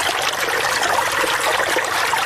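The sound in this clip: Water flows steadily as a farmer irrigates his six-jerib wheat field in Afghanistan, a constant rushing trickle of even loudness with no talk, for about two seconds.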